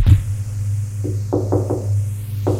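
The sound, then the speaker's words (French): Knocking on a door: five dull knocks, unevenly spaced, with a quick cluster in the middle. The knocks are fairly soft over a steady low hum. “On a frappé à la porte.”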